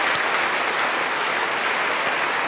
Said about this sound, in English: our radio audience should know that you just got a hell of a standing ovation.